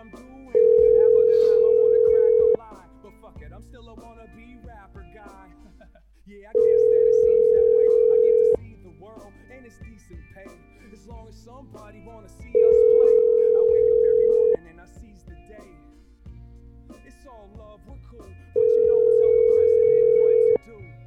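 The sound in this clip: Ringback tone of a phone call to someone: four long, even ringing tones of about two seconds each, spaced by regular pauses, with a voice speaking quietly in the gaps between rings.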